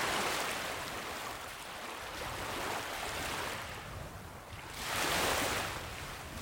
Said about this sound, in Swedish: Hav låter likadant överallt.